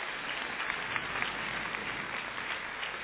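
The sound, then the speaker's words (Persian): An audience gives itself a round of applause: faint, steady clapping from many hands with small sharp peaks, and no voices standing out. “یه طور قدردانی کنم، یه دست برای خودتون بزنید.”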